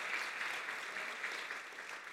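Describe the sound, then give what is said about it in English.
An audience claps to welcome six football recruits at a morning chapel gathering: dense, even, fairly faint applause that holds steady throughout, with no voices. “Let's give them a hand and welcome them”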